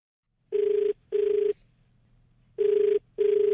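A telephone rings for a call into a radio phone-in show. Four steady, bright ring bursts arrive in two pairs with a clear pause between the pairs, alone over a faint low hum.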